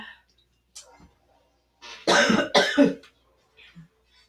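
Two loud, harsh coughs come in quick succession, with a few faint breathy sounds before and after in an otherwise quiet setting.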